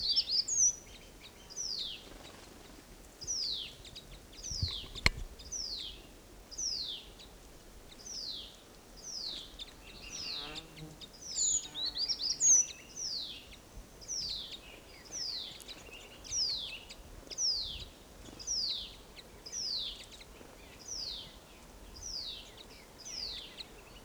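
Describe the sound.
A flock of birds calling: many short, high, thin chirps that each slide downward, repeating in a quick, steady series throughout.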